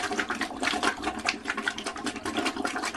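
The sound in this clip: Teeth being brushed, with rapid, scratchy bristle strokes repeating in a steady, busy rhythm and a wet, hissing edge, fairly quiet and with no talking.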